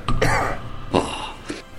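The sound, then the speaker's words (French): A man coughs in a few harsh, raspy bursts, a lingering cough said to come from nitre, with no talk around it. “Depuis combien de temps avez-vous attrapé cette toux ?”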